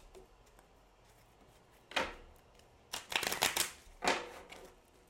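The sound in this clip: Healing mantra cards being shuffled to draw one, with a few soft, quick riffling bursts over faint background, the longest flurry falling in the middle, all fairly quiet.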